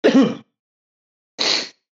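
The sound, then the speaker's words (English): Two short coughs from a person, the first lower and throaty, the second a breathy, hissing burst, separated by a pause of about a second. “Sorry, I'm coughing.”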